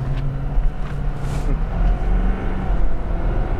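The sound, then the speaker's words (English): A pickup truck's engine is pushed hard on a back road, giving a loud, continuous low rumble and drone with a steady engine hum throughout and no clear voices. “So I'm gonna beat on your truck with permission.”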